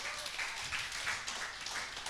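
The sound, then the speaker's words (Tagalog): A church audience applauds graduating young members at an anniversary service, a soft, continuous patter of many clapping hands that holds evenly throughout. “Okay, so lahat naman nag-graduate, yung mga batang to, palapakan nito ng Panginoon.”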